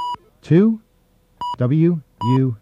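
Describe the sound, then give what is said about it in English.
Touch-tone keypad beeps sound while a five-digit extension is dialed on a phone voicemail system. Three short, bright tones are spaced apart, and a voice speaks between them. “Then you dial the 5-digit extension,”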